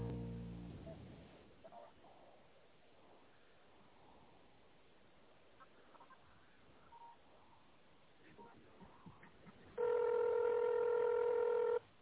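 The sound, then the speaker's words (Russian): A telephone keypad tone, dialed in tone mode to reach an extension on a company's automated phone menu. One loud, steady tone lasts about two seconds near the end, after a long stretch of quiet line hiss. “Если вы знаете внутренний номер абонента, наберите его, пожалуйста, в тоновом режиме.”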